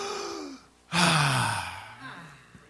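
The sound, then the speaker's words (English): A church audience breathing in during a sermon: a loud, breathy rush of air that swells suddenly and then slowly fades over about two seconds, with a low voiced sigh beneath it. “Y'all got breath? Breathe in.”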